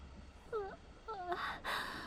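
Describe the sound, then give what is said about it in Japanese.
A big yawn, two drawn-out, moan-like vocal stretches that slide downward in pitch, followed by a breathy exhale. “大きなあくび。疲れた？だよね、私も。”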